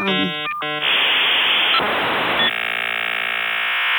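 A dial-up modem connects: a few short beeping tones, then loud bursts of hissing static, then a sustained buzzy multi-tone screech that runs to the end.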